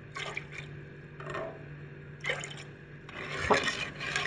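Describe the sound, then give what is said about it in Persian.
Milk is lifted with a ladle and poured back down into a pot of milk during cooking, a few soft splashing pours separated by brief pauses, the last one longer and fuller. “شیر رو با ملاقه برمیدارم و به اندازه تقریبا 5 سانتی میارم بالا و اونو میریزم پایین. ببینید چه صدایی میده.”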